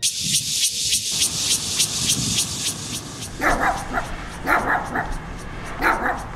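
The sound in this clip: A dog barks repeatedly in the middle of the night: a quick run of sharp barks, then a few spaced, louder barks.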